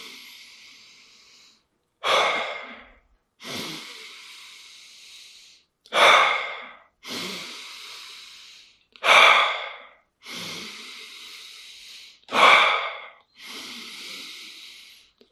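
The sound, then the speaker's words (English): Deep breathing from a guided breathing exercise, with distinct inhales and exhales. About nine loud, airy breath sounds alternate between short sharp pulls and longer, slower releases. There is no talking. “When my hand goes up, that means inhale. When it goes down, it means exhale. We'll do this for about 30 breaths together”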